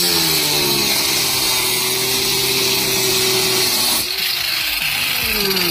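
A power tool cuts through asbestos material with a loud, steady motorized whine rich in harmonics, its tone shifting abruptly partway through before running on.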